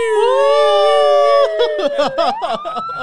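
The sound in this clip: A police siren sound effect meant as the RCMP. A loud, sustained wailing tone breaks into choppy, overlapping pulses while a higher tone slowly climbs.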